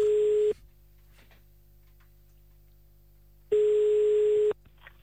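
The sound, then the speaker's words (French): Ringback tone of an outgoing telephone call: steady beeps, with one cut off at the start and another lasting about a second after a long silent gap. “Bon, eh ben on va appeler à Namur. Eh ben appelons Namur.”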